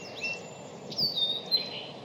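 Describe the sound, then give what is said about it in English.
A song sparrow sings in the open, a few faint, thin, high whistled notes over a steady low background hum. “I just paused because just as I was about to speak, a song sparrow sang out right behind us.”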